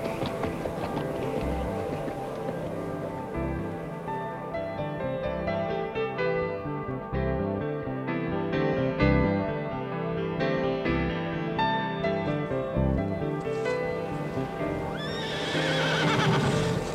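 A white horse gallops with steady, rapid hoofbeats under a rider heading to a dike, and a high neigh rises near the end.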